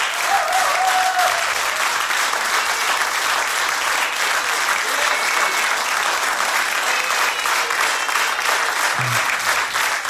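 Audience applause after a live concert by a band, dense and continuous throughout, an even wash of many hands clapping at steady loudness with no break.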